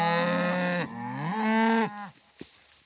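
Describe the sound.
Cattle at pasture mooing as they call to each other when it is time to move to new grazing: two deep, drawn-out moos follow in quick succession, the second rising in pitch, then quiet.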